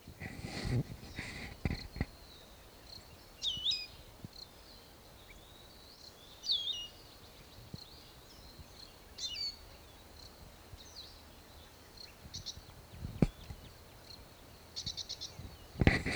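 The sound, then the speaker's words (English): Bird calling: faint, high, thin chirps recur a few times with long gaps between them, over a quiet hiss and occasional soft clicks. “Same bird.”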